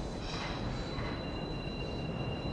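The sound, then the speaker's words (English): Train approaching, heard as a steady, loud rumble with faint high squealing tones from the wheels held through the whole clip. “The train approaches.”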